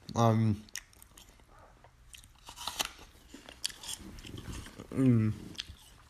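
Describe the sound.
Crisp biting and chewing of a firm, slightly tangy apple: many crunchy, irregular crackles, with short bursts of talk at the start and near the end.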